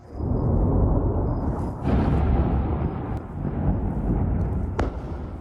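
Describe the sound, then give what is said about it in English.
A series of explosions after airstrikes in southern Lebanon makes a deep, continuous rumbling roar that surges in a few heavy waves. A brief sharp crack stands out near the end. “There have been a series of explosions in southern Lebanon overnight.”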